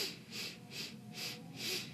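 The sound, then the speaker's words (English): Five short, evenly spaced sniffs as breath is sipped in through the nose during a breathing exercise. Each is a soft, airy hiss, with no talking. “So we're going to inhale through our nose. We're going to sip in for five, like this.”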